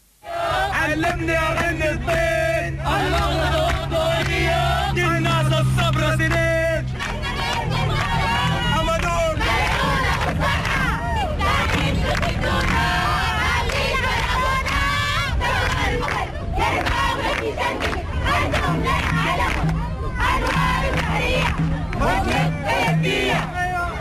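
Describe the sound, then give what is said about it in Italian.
A large crowd in the streets of Khartoum shouts and chants for freedom at a protest, with loud, continuous massed voices rising into repeated rhythmic cries throughout. “Due anni fa si gridava libertà per le strade di Khartoum, ora succede lo stesso. Le immagini e le grida che abbiamo appena sentito”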